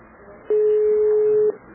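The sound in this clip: A single steady mid-pitched ringback tone sounds for about one second as a phone call rings through to a civil registry office in Florianópolis. Faint background hiss comes before and after it.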